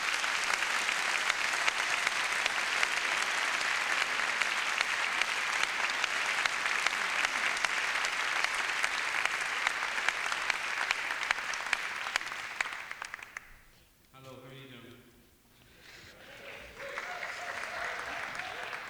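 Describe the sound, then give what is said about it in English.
Audience applause welcomes two performers at a 20th anniversary traditional music show: dense, steady clapping holds for about 13 seconds, then thins out and dies away as a voice briefly comes in. “please put your hands together and give a great welcome to Tommy Keane and Jacqueline McCarty.”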